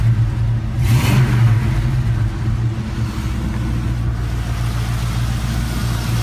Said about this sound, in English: Just wanted to run it so you see how easily it starts. Idles. Should have been a know-your note. Rev.